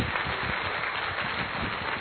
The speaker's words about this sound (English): but a big round of applause to them as well.